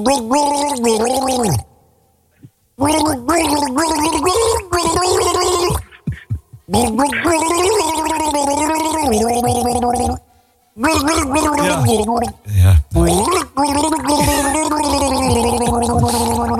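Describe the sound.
A woman gargles the melody of a famous pop hit: wet, bubbling throat sounds that carry a clear tune in several sung phrases, broken by short silent gaps.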